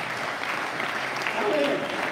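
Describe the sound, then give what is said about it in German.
Applause from a church audience for two people: dense, steady clapping that holds at an even level from start to finish. “Gebt den beiden mal einen Applaus.”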